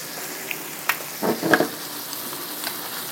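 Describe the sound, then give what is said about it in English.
Vegetables are stirred as they fry in oil with warm fish in a pan. A faint, steady sizzle runs throughout, broken by a few soft scraping clicks from the stirring. “I'm just stirring the vegetables so that they can start to thaw in with the warm fish and the oil.”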